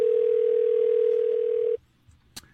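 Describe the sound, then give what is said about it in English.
A steady telephone dial tone on a push-button phone holds one constant pitch for nearly two seconds, then cuts off abruptly and is followed by a faint click. “Are you dialing correctly? Are you pushing the button numbers hard?”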